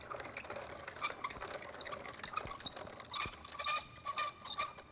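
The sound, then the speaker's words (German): A wheat sample grinds in a small mill for moisture testing, producing a faint, busy mechanical whirr and rattle that runs steadily while its loudness flickers irregularly. “Und der kommt jetzt da in die Mühle. Der wird ein bisschen gemahlen.”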